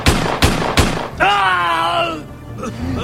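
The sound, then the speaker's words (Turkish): Gunshots ring out during a police confrontation: three sharp, loud cracks in quick, even succession. A man's drawn-out shouting cry follows immediately. “Abi! Gürkan abi! Vuruldun mu? Vurdu beni.”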